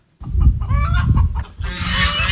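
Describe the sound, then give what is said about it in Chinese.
Farm fowl calling on a cooperative farm in Miyun District: loud, overlapping clucks and crowing from chickens, with geese honking among them, in a busy continuous stream with a brief dip partway through. “走进密云区密园小农合作社的如新农场，鸡鸣鹅叫声此起彼伏”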